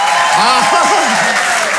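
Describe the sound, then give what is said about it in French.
Loud applause and cheering from a French comedy show audience greeting a Swiss stand-up comedian, a thick wash of clapping with a voice whooping in rising and falling bursts over it. “Merci pour cet accueil chaleureux. Faites-moi plus de bruit là, s'il vous plaît.”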